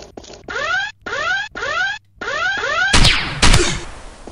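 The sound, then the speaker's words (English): Pistol shots in a video game ring out as two sharp, loud bangs near the end, after a series of four repeated rising chirp-like tones. “Oh, I love this pistol.”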